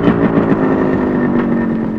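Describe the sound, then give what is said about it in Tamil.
A motorcycle engine idles as the bike stops, giving a steady, loud, low throbbing rumble with an even, unbroken tone throughout. “ஏய் பைக்கப்பா, கொஞ்சம் வண்டி நிறுத்து.”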